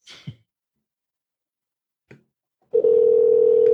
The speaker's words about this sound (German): Ja, der schämt sich schon, ans Telefon zu gehen.